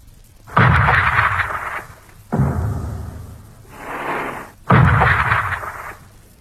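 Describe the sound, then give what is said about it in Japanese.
Heavy naval gunfire bombardment shaking the ground, heard as three loud, broad booming blasts with rumbling tails, the second followed by a softer rolling swell, spaced a second or two apart. “私は大地を揺り動かすような艦砲射撃の音で目を覚ましました。”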